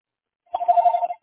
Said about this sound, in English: I'm access to the other phone right now. All right. So it should be giving you a call in a moment.